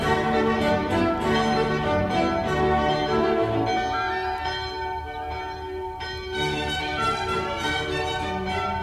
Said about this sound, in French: L'Angélus sonne dans le petit village de la Hesse qui a été surnommé Repos de la Conscience.